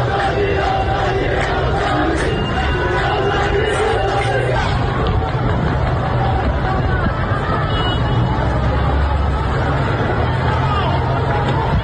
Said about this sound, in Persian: صدای معترضان رو بشنویم در این ویدیویی که به دست ما رسیده و البته در شبکه‌های اجتماعی هم پخش شده.